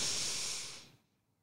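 Deep inhale from a group doing a breathing exercise: a single airy, hissing breath lasting about a second that fades away into silence, with no talking.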